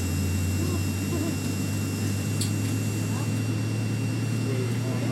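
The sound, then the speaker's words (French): An aircraft engine runs at takeoff power during the takeoff roll, a loud, steady low drone with broad rushing noise that holds even throughout. “ça accélère. Je vois que j'ai la puissance décollage ici, là, sur mon, mes, cadran du haut.”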